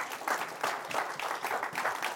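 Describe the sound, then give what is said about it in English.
An audience claps its hands in praise of the Lord during a church service, producing a brisk, rhythmic run of many sharp claps in an even beat that holds steady and fairly loud throughout. “Let's give the Lord a hand clap. Come on.”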